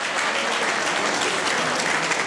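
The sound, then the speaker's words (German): Warm applause for a teacher, a thick, even wash of clapping hands that stays loud and constant for the full length without any break. “Ein großer Applaus für die Frau Professor.”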